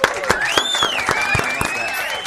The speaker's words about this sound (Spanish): ¡Fuertes aplausos!